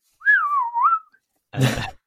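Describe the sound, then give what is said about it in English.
A person whistles in imitation of a dolphin signature whistle, producing one wavering, looping tone that lasts about a second. A short, breathy burst of sound follows after a brief pause. “Yeah, they have signature whistles that are distinct to particular dolphins. So they might go...”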